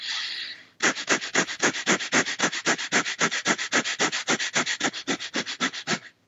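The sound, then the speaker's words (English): Quick, forceful breaths are pushed in and out through the nose in a rapid, even rhythm of many sharp, hissing bursts, about five per second, after a longer opening breath. Nothing else is heard. “So it's just really quick breathing, and it just kind of sounds like this.”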